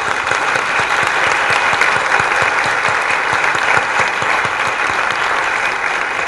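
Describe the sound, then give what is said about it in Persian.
An audience clapping at a motivational seminar on wealth and happiness, a loud, even wash of many hands that keeps up for about six seconds without a break or voices. “من وقتی موفقم که شما ثروتمند بشید وقتی موفقم بزنید دست بزنید”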